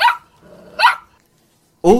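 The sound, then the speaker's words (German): A dog said to do arithmetic barks three times, short sharp barks with longer quiet gaps between, the last after a pause. “Um einen Hund, der rechnen kann.”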